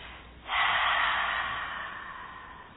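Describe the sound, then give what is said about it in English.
A single deep breath released through the mouth makes a soft, airy rush that starts abruptly and slowly fades, heard alone. “when you fill up, hold it for a count of three, and then release the breath through the mouth.”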